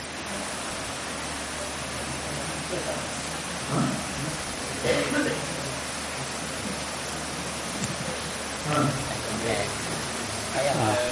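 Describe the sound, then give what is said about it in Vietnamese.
Heavy rain pours in a dense, steady hiss that fills the whole clip during a question session. Voices come through faintly beneath the downpour at times. “Thế thầy không nghe được. Tại mưa rất là lớn.”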